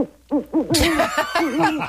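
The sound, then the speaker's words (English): An owl hoots many times in quick succession, each hoot loud and wavering in pitch, with a brief burst of harsher noise early on. “Is that who Hedwig is, an owl?”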